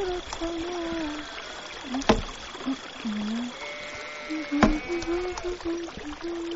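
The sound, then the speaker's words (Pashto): A mountain stream flows under a small bridge, a steady burbling trickle punctuated by two sharp knocks, with a voice faintly heard over the water. “زه د ویالې د پاسه په کوچني پله ناسته وم.”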